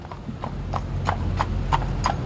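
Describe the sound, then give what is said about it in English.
Horse hooves clip-clop steadily as the horse pulls a carriage through a park, about seven even, moderately loud strikes over a low, constant rumble. “You folks care for a nice carriage ride today. Lovely ride through the park.”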